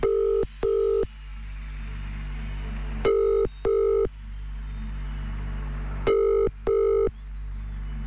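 Telephone ringback tone on a repeated call after reaching voicemail: three paired buzzing bursts, evenly spaced about three seconds apart, over a low steady hum.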